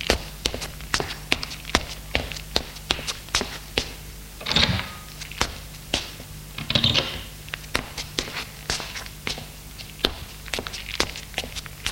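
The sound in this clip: Footsteps climbing stairs to the upper floors of a house: many steady, evenly spaced steps that tap along alone, with two broader, louder bursts partway through.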